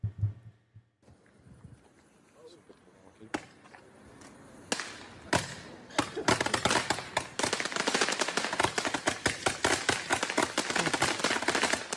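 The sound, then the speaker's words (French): A firework mortar cake fires a 380-shot test barrage into the air. A few scattered sharp bangs grow into a dense, loud, rapid crackling volley of many blasts that continues to the end. “Ils ont fait l'essai avec le mortier 380 coups en l'air, comme ça. Vous, l'allumez une fois il y a 380 coups qui partent.”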